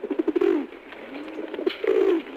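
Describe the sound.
A racing pigeon coos in two loud, low phrases. Each opens with quick throbbing pulses and ends in a drawn-out, rolling coo.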